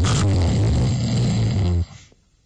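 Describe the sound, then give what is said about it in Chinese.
A voice imitates a man's thunderous snoring in sleep: one long, loud, rasping, buzzy breath that lasts nearly two seconds, then cuts off into quiet. “打呼噜，这呼噜震天。”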